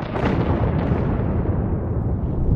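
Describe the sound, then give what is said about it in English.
A bombing explosion sound effect for the 1941 attack on Pearl Harbor: a loud, sustained roaring blast with deep rumbling and crackle that barely fades, heard alone. “on December 7th, 1941, Japan bombed Pearl Harbor.”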